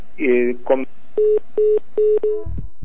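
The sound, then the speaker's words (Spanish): Touch-tone telephone dialing to reconnect a dropped call: several steady, evenly spaced beeps of the same pitch, loud and clear, preceded by a couple of shorter tones and followed by a low rumble. “Vamos a tratar de reconectar la llamada”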